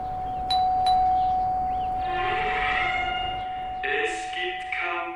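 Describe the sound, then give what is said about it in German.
An old doorbell rings at a worn house facade, a bell unchanged for about 40 years. Harmonic ringing tones sound in a few bursts over a steady hum and background noise. “Und hier die Klingel hat sich im Prinzip seit den letzten 40 Jahren nicht geändert. Wir können ja vielleicht noch mal ein letztes Mal klingeln.”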